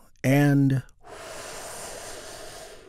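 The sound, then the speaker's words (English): A deep breath drawn in and then released during a guided breathing exercise: a short, voiced intake followed by a long, steady, soft exhale that fills the rest of the moment. “Take another big, deep, healing breath right now. Here we go.”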